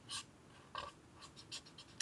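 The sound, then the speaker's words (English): Marker nib scratching across paper while someone colours in layers of blue on a drawn cake, heard as short, dry scraping strokes in an uneven run of several bursts. “And then draw another layer of blue, another layer of blue, and then colour it in”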